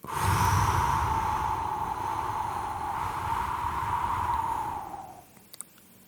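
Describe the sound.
A slow, steady exhale during a breathing exercise lasts about five seconds, sounding breathy and even at a fairly constant level before it tapers off into near silence.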